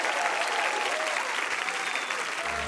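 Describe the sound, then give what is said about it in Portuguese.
Audience applause during a conversation event: thick, even clapping from many hands, sustained at a steady level throughout. “São surdas, mas ouvem aplausos!”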